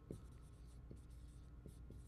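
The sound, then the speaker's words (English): Pen scratches rapidly across paper in quick, faint strokes, several short scratches close together over a low steady hum. “I'm even writing fast as I talk.”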